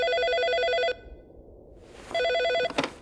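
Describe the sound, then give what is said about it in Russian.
A telephone rings in an office with a bright, trilling electronic ring in two bursts: a longer burst, a pause, then a shorter burst, followed by a brief knock. “Почти сразу там зазвонил телефон.”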